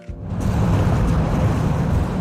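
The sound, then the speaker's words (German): Steady rushing water and headwind aboard an all-electric river ferry on the Main, its motor nearly silent. A broad, low-heavy roar swells up within the first half second, then holds loud and even with no voices. “Nur das Rauschen des Wassers und der Fahrtwind.”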